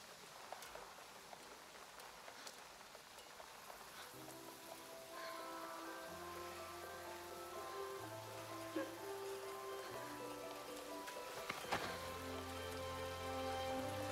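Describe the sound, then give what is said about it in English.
Faint, steady patter of rain runs throughout. After a few seconds, soft sustained musical notes join it and continue to the end. “Sorry about the rain.”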